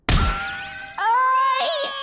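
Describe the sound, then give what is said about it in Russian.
Cartoon bonk of two heads knocking together: one loud, sharp thwack with a ringing tone, then a wobbly, warbling twang that rises in and sustains to the end. “Древние фолианты гласят, что удариться головами – это лучшее лекарство. Вот оно! Готовы?”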